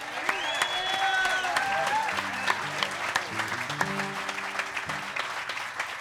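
Audience applause welcoming a musician onto a stage: a crowd claps steadily and fairly softly, the clapping dense and sustained throughout.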